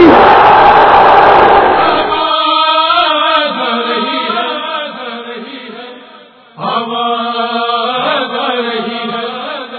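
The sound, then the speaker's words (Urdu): A crowd at a religious gathering roars back in response to the Naara-e-Haidari slogan honoring Mola Ali. A loud, rough burst of massed voices gives way to a sustained chanted shout, which dips briefly and then swells again. “اتنی پوری طاقت سے مولا علی کا اس نعرے کا جواب دینا ہے جس نعرے کو لگا کر ہم جنگوں کو جیت لیتے ہیں. نعرے حیدری”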